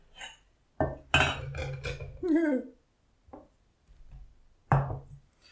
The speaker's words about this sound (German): Als erstes nehme ich mir einen kleinen Topf.